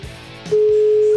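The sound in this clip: A steady, mid-pitched telephone ringing tone of an outgoing call begins about halfway through and holds loud and unbroken to the end, after a stretch of quiet, low background sound.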